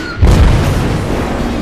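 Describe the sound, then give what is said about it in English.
A bomb dropped from a plane at 50 feet erupts on a battleship's deck in one heavy, deep boom. It hits abruptly, then settles into a long, loud rumbling decay. “let go of his bombs at 50 feet. They flutter down, one of them hitting square and erupting on the deck.”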